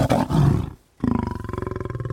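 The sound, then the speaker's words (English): A pride of lions, females and cubs lying close by, roars loudly. One long, deep roar is followed by a brief silence, then a steady run of rhythmic, pulsing grunts. No voices are heard. “that pride, three or four females and, you know, 9, 10, a dozen cubs will come back to that place and just lay down right in front of your microphones and start vocalizing.”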